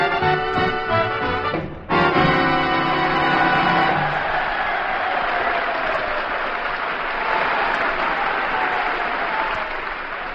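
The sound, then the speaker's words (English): An audience of veterans at a naval special hospital in Santa Cruz, California, breaks into sustained applause as a band's final chord ends. The dense clatter of many clapping hands holds steady for about eight seconds. “Yes, sir, that's the sound of our audience, the veterans of the United States Naval Special Hospital, Santa Cruz, California.”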